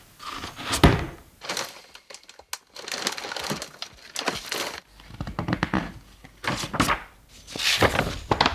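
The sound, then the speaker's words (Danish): Crinkling, rustling paper and dull thumps as a box filled to the brim with papers, grades and testimonials, is opened and handled, in many irregular bursts of varying loudness. “Ja, jeg er klar til at åbne kassen.”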